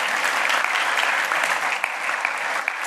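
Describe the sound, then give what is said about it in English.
Audience applause welcomes a woman speaker before her sermon at a church ministry gathering. The clapping is dense and steady, with no break for the whole stretch. “So Sandra, take it away. Let's welcome her.”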